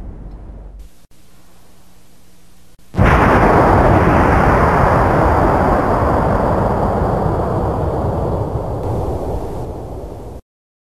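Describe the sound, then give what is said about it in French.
Explosion of a booby-trapped mine in a video game: a low hum gives way to a sudden loud blast that becomes a long, roaring wash of noise and slowly fades. “Cette mine est piégée pour décourager les voleurs. Tu dois aussi tirer sur la pioche.”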